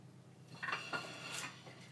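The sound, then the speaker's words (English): Faint clinks and light scrapes come as a plate that held raw meat is cleared away while cooking. A few brief ceramic knocks and a short rasp stand out from a quiet background. “Let's get rid of this plate here because this one has raw meat on it”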